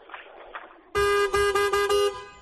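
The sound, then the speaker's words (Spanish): A car horn honks several times in quick succession, loud, bright, brassy blasts with short breaks between them, after a moment of quieter background noise. “Oiga, ¿por qué toca el claxon de esa manera?”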